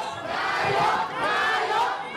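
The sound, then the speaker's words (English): A crowd of Thai voters chants in Bangkok while mobbing a politician. Many voices merge into a dense, loud, continuous swell that rises and dips without a clear beat. “A crowd of Thai voters chanting, "Prime Minister, Prime Minister," while gleefully mobbing a man named Pita Limjaroenrat.”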